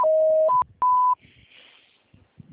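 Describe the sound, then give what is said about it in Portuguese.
A telephone voicemail signal tone sounds after a Portuguese greeting message: a steady lower tone, then two short higher beeps, loud and clean, followed by faint hiss and quiet low noises. “Sua chamada está sendo encaminhada para a caixa de mensagens e estará sujeita a cobranças após o sinal.”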